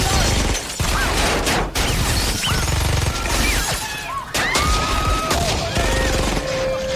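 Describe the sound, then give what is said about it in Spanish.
Heavy gunfire as people are shot at during a hostage standoff at a hotel: loud, continuous volleys of rapid shots with crashes and shattering, sustained over the whole stretch with brief dips between bursts. “¡Nos están disparando! ¡Cúbranse! ¡Respondan al ataque!”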